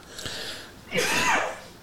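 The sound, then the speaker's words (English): A woman coughs after sipping whiskey mixed with cola: two harsh, breathy bursts, the second louder and longer. “She's drinking her whiskey mixed and coughing, and I'm drinking mine straight.”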